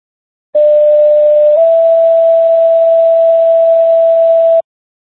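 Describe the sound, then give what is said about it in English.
Fire alarm test tones sent over an EMS dispatch radio channel: one loud, steady tone holding about four seconds, with a fainter lower tone beneath it for the first second that then drops away. “Fire alarm is testing tones for Webster EMS WPKZ 854, cleared 1800 hours.”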